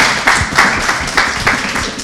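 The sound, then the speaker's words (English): Audience applause fills the whole short stretch as dense, steady clapping with no voices, swelling a little louder at a few moments. “Sammy Shah, ladies and gentlemen, keep clapping. That was amazing.”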